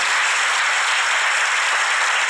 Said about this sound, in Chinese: 是不是我们大家为这些佛光菩萨们一起掌声